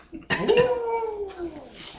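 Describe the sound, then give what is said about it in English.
A person imitates an owl with a single drawn-out, wavering hoot that slides slowly downward in pitch. It is fairly loud, and faint noise trails after it. “That was a terrible owl.”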